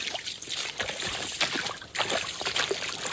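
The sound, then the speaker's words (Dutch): Water sloshing and trickling as a fishing net is cast far out into the water and slowly hauled back, a continuous wet splashing texture with a louder surge partway through, quiet overall. “wat ik ga doen is dat ik probeer met een mooie worp het net een flink eind in het water te gooien. En hem dan heel langzaam weer terug te halen. Daar gaat hij.”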